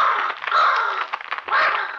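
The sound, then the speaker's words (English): Raven cawing: a few harsh, rasping, drawn-out calls in close succession, loud and alone with no talk. “On the head of the bed perched a huge black raven, and as it saw Ned, it flapped its wings angrily.”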